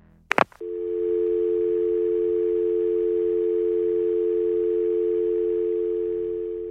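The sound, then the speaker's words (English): A telephone dial tone follows a caller hanging up: a brief clunk of the handset, then a steady, unbroken electronic hum that holds at an even level to the end. “Then the caller would hang up.”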